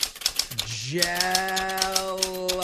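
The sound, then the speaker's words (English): Keys clacking on a typewriter in quick, irregular strikes that run through the whole clip, with a voice speaking over the typing for most of it. “You're using a typewriter.”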